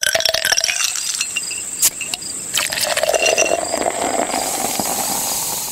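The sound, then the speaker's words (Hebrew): Ice cubes clinking in a full glass: many bright, sharp clinks over a steady fizzing hiss, with no talk. “דמיינו רגע רקע אדום, כוס מלאה בקוביות קרח, ואז את הצלילים האלו.”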